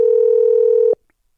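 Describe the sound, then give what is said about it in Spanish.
Telephone dial tone as a call is placed: a single steady, buzzy tone held for about a second, then cutting off abruptly into silence. “Estamos llamando a Pedro Ubaldo Polinar. No tenemos la respuesta.”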